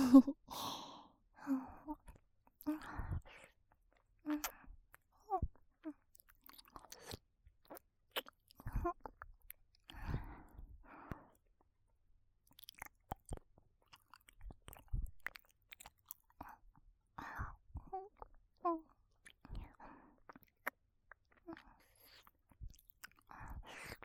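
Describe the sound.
Chewing and biting, with many irregular soft crunches and wet mouth sounds, some louder than others, along with occasional breathy sighs, heard up close.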